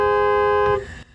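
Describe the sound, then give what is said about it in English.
A BMW i4 M50 electric car sounds its horn in one steady, harmonically rich blast lasting under a second, then cuts off abruptly and leaves low background noise. “This, folks, is not a van. It's the BMW i4 M50. Okay, we are in the BMW i4 M50. That's the little startup noise you're hearing now. And we're going to do the beep test. So here's beep.”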